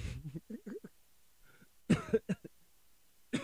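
A marijuana smoker coughs from the lungs with a few deep, chesty bursts, some in quick pairs. They follow a brief stretch of muffled vocal sounds and are separated by short quiet gaps.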